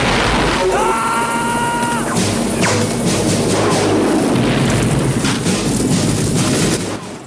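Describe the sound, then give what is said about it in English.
Explosions rumble as huts are blown up in a camp attack in the film Rambo. The blasts form a loud, dense, continuous rumble that fades away at the end. “Rambo sneers with rage as he blows up countless huts and guns down dozens of Russian and Viet soldiers.”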